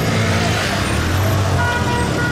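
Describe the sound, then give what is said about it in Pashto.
Traffic noise from cars waiting at and passing through a Taliban security checkpoint near Amir Mohammad Khan Qala in Ghazni city. A loud, continuous blend of idling and moving engines throughout. “د غزنی ښار امیر محمد خان کلا سیمه کې تلاشی مرکز ته چیرمه یو شمیر موټران ولاړ او ډیرای نور له تلاشی کولو څخه ورسته تیریږي”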